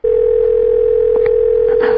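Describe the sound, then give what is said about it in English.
A telephone dial tone heard on the line after a number is dialed: a single steady, unbroken electronic tone that holds at even loudness for the whole two seconds, with a few faint clicks beneath it. “I think I dialed the right number.”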